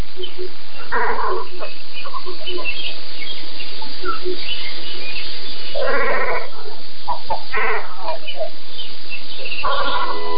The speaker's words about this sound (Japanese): カワウのねぐらとの距離は400メートルは離れていました。そんな遠くのカワウの声が聞こえてきたのも山に囲まれた静かな湖ならではです。